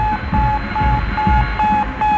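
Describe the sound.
Regular on-off beeping from the Sputnik 1 satellite's radio signal: a steady mid-pitched tone pulsing in an even rhythm over a constant hiss of static.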